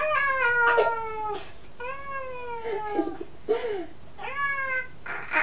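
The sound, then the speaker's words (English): A cat meows repeatedly: a few drawn-out, falling meows separated by short pauses, with light rustling and small bumps between them. “Did it scratch you? Somebody's kitty, somebody's kitty.”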